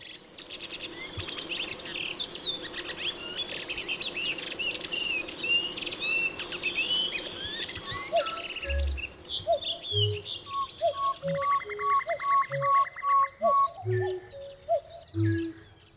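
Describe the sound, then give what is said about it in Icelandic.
Redwing thrushes sing in a dense tangle of chirps, trills and muttered warbling, which gives way to a sparser run of short repeated notes. A few soft low thumps sound underneath. “Mögulega muldur skóarþrastana einhvers konar tungubrjótur eða djassspunni þar sem hver þröstur sýnir fram á sönghæfileika sína.”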